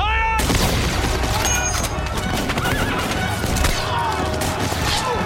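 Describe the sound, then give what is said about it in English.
A volley of rifle fire from police opens on marchers. A horse whinnies sharply at the start, then many loud, rapid gunshot cracks follow in a dense, ragged burst that runs throughout, with possible shouting underneath. “Fire! 16 Nazis and 3 policemen are killed.”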